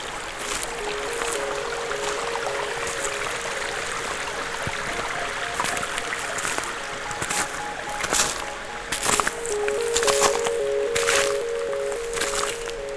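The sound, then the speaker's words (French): Small streams trickling among patches of snow and dead leaves give a steady, continuous gurgle with occasional brief splashy accents and no voices. “Des ruisselets.”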